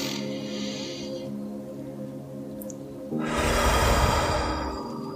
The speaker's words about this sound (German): Versuche in meinen Rhythmus einzufinden. Atme richtig tief ein durch die Nase.